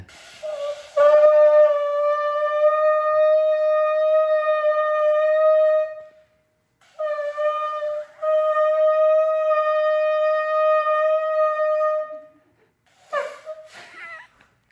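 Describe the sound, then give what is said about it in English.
A ram's horn blown by a player who studied trombone, giving two long, steady, brassy blasts of about five seconds each with a short pause between them, followed by a brief breathy, noisy burst. “There you go. That is the sound of ram's horn.”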